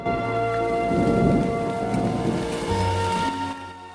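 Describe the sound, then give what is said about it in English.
Rain comes down steadily onto a roadway, forming a large puddle: a continuous dense hiss with a low rumble underneath and sustained tones running through it. “Rain comes down, forming a large puddle on the roadway outside the Moffat Arms.”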